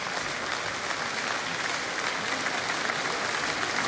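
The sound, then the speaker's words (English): An audience applauds an orchestra at the National Concert Hall in Dublin, with steady, dense clapping that holds at an even level. “And huge applause and appreciation, the National Symphony Orchestra Ireland with leader Elaine Clark, under the direction this evening of returning guest conductor Jessica Cottis.”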